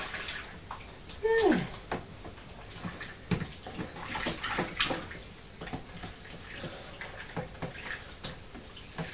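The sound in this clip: Water sloshes and splashes in a bathtub as a child is rinsed after soaping, with irregular splashes and a few louder bursts standing out from a steady wash of moving water.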